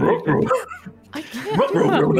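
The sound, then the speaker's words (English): A person imitates a dog barking into a microphone, a few voiced bark-like yips and whines in quick bursts with a short pause in the middle. “Do you want me to bark into my microphone right now”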